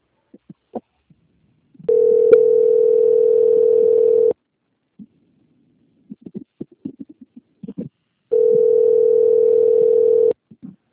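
A telephone line tone plays while a call is put on hold and transferred: two long, steady mid-pitched tones, each lasting about two seconds, separated by scattered soft clicks and brief noises.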